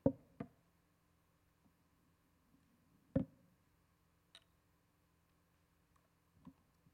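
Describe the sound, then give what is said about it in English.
A bottle is cracked open with a few sharp, quiet clicks and knocks separated by long silent pauses. “So I'm going to crack this bottle open while you're turning to Isaiah chapter 1.”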